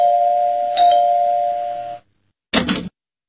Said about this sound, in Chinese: 不一会儿啊，家里的门铃就响了。